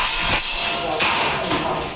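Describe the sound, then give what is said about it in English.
Air guns fired at targets by a dozen civilians in a Taipei basement: a few sharp, percussive pops spaced unevenly over a continuous background. “In a Taipei basement, a dozen civilians fire air guns at targets.”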